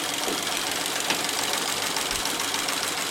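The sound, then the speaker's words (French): A punched card sorting machine (trieuse) runs steadily, ordering cards into sequence with a dense, fast, even mechanical clatter and no pauses. “La troisième machine qui concourt justement à la préparation des fichiers est la trieuse. Ça veut dire qu'on ordonne les cartes dans une suite logique.”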